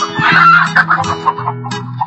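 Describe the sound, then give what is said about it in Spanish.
A hen clucks alone and loudly in a quick run of short, throaty calls, broken by a few higher squawks. “La gallina había puesto huevos muy extraños.”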